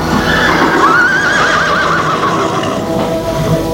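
A mare whinnies, a high wavering neigh that quivers up and down for about a second over steady, loud background noise.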